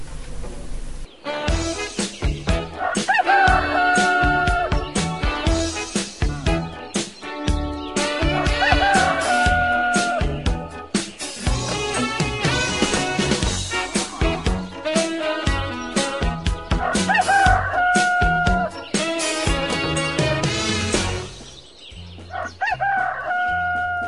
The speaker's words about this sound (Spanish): el canto de la gallina anunciaba el nuevo día.